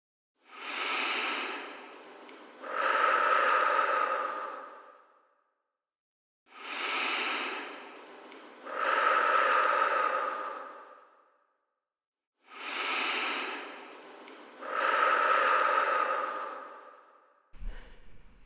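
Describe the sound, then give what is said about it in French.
Three slow, deep breaths taken during a guided relaxation exercise, each a breathy inhale followed by a longer, fuller exhale, separated by short silent pauses, with a brief burst of noise at the very end. “je vous propose de commencer ensemble par trois grandes respirations.”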